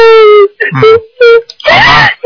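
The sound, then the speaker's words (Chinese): A young woman cries, with loud, strained, high-pitched wailing sobs in several bursts broken by brief gasps. “傻姑娘，不要哭了。不要哭了，”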